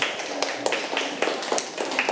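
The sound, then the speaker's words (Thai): A group of children in a class clapping for their classmates: many quick, irregular claps overlap in a brisk patter, with no talk. “ถูกต้องครับปรบมือให้เพื่อนๆทั้ง3คนหน่อยครับ”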